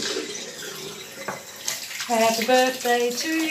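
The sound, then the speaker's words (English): Hands are washed under a running tap, with water pouring in a steady rushing stream, and a melodic voice joins over the flow partway through. “Washing our hands.”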